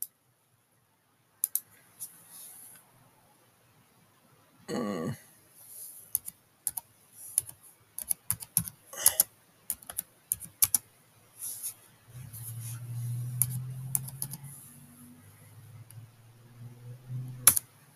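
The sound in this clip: Clicking of a computer keyboard as someone types to look something up: irregular bursts of quick key taps separated by short pauses, with a faint low hum toward the end.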